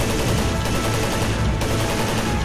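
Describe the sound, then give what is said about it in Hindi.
Rapid gunfire in a military firefight forms a loud, dense, continuous roar of overlapping shots, with no distinct gaps or voices. “Firing start हो गई है, आप firing का जवाब firing से देंगे।”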